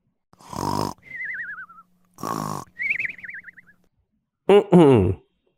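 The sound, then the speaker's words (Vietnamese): A man in deep sleep snores in an exaggerated, comic way: three harsh, raspy snores. The first two are each followed by a high, wavering whistle on the out-breath. “ngủ say ngáy khò khò”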